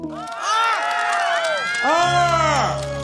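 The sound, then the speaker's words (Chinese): An audience at a show cheers for a performer spinning a large handkerchief on a stool. Many voices overlap in loud whoops and shouts whose pitch swoops up and down in waves. “你们看过没有别人转这么大手绢的话，掌声、欢呼声再次热闹一下，好不好？”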